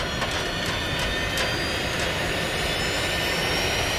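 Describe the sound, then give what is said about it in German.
A spaceship's jet engines switched on for launch make a loud, steady roar with thin high whining tones. A few brief hissing bursts rise through it near the start. “Es ist hier sehr laut, weil der Kapitän die Düsen der Hypo Hyperspace angeschaltet hat.”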